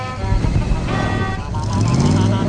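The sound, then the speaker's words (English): A pink food truck crashing through a gate gives off a loud, dense, continuous engine roar with a heavy low rumble and no clear pauses. “The pink food truck crashes through the other gate.”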